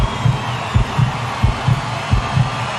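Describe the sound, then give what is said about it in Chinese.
A heartbeat plays as a concert is about to begin. Low, dull thumps come in a steady, paired lub-dub rhythm, fairly loud over a constant background hiss. “听到这心跳声了吗？”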